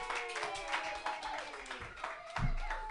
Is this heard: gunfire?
no